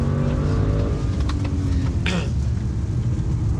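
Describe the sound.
Car engine running under acceleration, a loud, steady drone with heavy low rumble that stays strong throughout.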